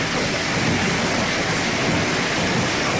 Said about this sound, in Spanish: Este es el sonido de la brutal tormenta que descargó el pasado viernes lluvia y granizo sobre la Puebla de Don Fadrique en el norte provincial.